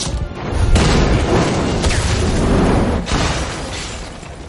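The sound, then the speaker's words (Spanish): A kitchen explodes in a loud, broad roar of blast and debris lasting several seconds. A few sharper crashing bursts break through before the noise slowly fades. “El perro pisa el chicle y explota la cocina.”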